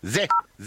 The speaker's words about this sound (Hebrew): הנה, זה, זה הצליל של אפס